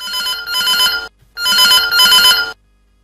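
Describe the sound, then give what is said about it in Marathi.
A telephone bell rings in two long bursts, each a bright, rapid metallic trill, separated by a short silence. The ringing is loud and alone. “चला फोनची bell देखील वाजते”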